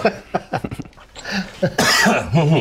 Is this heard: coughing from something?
yes

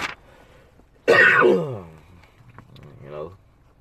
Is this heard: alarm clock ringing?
no

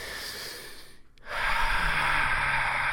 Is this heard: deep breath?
yes

